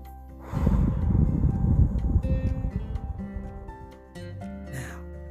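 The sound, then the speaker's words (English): One long, deep breath drawn in and let out, a breathy rush of air that swells quickly, holds for several seconds, then tapers away into quiet. “Now let's try that one more time. I think we could do better. Ready? Breathe in and let it out.”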